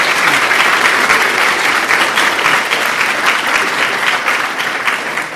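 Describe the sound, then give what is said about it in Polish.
Audience applause welcoming a couple of guests at a conference on love and relationships: dense, continuous clapping that holds steady throughout and eases slightly toward the end. “Także witamy jeszcze raz brawami Państwa Kaczyński.”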